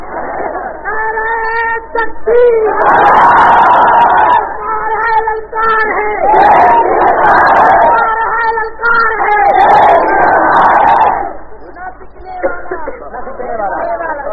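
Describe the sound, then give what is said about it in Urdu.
A large crowd at a political rally chants slogans in loud, rhythmic waves, with a single voice alternating with massed shouted replies that rise and fall in repeated bursts. “یہ نعروں سے کچھ نہیں ہوتا، توجہ، نعرہ نہ لگائیں”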